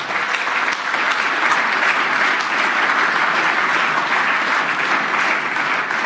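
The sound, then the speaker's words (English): An audience gives sustained, dense applause in recognition of someone who built a wireless LAN. The clapping stays loud and even for about six seconds without a break. “and I think we should get someone a special applause, because it's Mac, who took a lot of effort into building the wireless LAN.”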